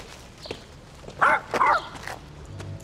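A dog barks twice in quick succession, two fairly loud, mid-pitched barks standing out against a quiet background.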